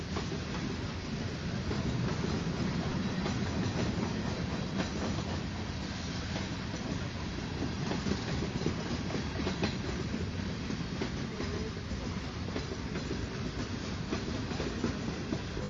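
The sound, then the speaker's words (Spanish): A train passes along railway tracks in Santa Catarina with a continuous loud, broad rumble. A rhythmic clickety-clack of wheels over rail joints runs steadily through the whole passage, with no talking over it. “Hicimos la producción para que pasara el tren justamente en el momento de la transmisión.”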